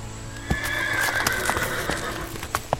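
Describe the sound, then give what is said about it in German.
Horse neighing in a long, high whinny, with a few sharp hoof clops at the start and near the end. “Manche nennen unser Tier Equus caballus.”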